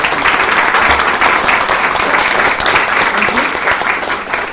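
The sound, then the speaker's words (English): A round of applause at a committee meeting honoring a departing member for his service, loud and dense clapping that carries on steadily without a break. “if we could just give him a round of applause”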